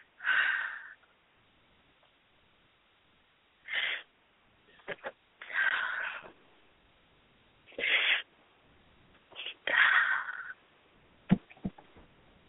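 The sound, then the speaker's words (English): Deep breathing from a person pausing to catch their breath, heard as a series of loud, airy inhales and exhales separated by quiet gaps, with a few short sniff-like bursts and no talk. “I got to breathe, hold on.”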